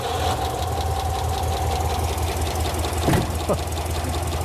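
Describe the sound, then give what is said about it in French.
An old V8 car engine runs rough, apparently firing on only four cylinders, with a loud, steady, lumpy knocking throughout. “Pas terrible, ça. Non, pas pour un V8. On dirait qu'il tourne sur 4 ou 5 cylindres.”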